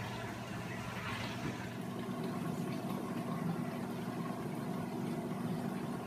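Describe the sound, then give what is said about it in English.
Hands being washed under running water, a soft, steady rush and gurgle that continues evenly throughout with no clear breaks. “let me wash my hands and we'll wrap it up.”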